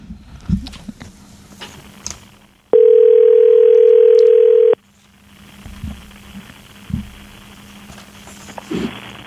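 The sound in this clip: A loud, steady telephone dial tone sounds while a call is being placed. It holds unbroken for about two seconds between quieter stretches of faint background noise.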